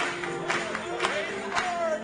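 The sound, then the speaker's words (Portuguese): Church audience clapping hands during worship singing: a few sharp, evenly spaced claps over sustained musical tones. “Batamos palmas para ele.”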